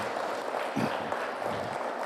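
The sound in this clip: Applause from a church audience welcoming a pastor: dense, steady clapping that holds at an even level from start to finish.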